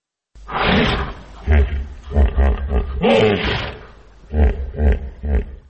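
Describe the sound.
Deep, rough roaring grunts from a 16-year-old hippopotamus at a zoo, sheltering in an open elephant enclosure after a flood; several loud bellowing bursts come in uneven clusters separated by short pauses.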